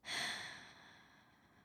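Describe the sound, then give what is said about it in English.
A single soft breath is exhaled into a new microphone fitted with a noise gate, rising quickly to a breathy hiss and then thinning out over about a second and a half, faint and alone. “I think I got my noise gate on too high because I'm still sort of breathing.”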